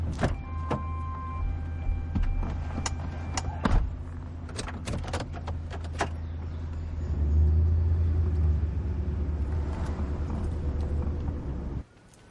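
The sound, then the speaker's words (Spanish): A car pulls in through a gate into the grounds of a house. A few sharp clicks and clatters come first, then a low engine rumble swells midway and cuts off abruptly at the end, with no talk. “abre la cancela y mete el coche dentro”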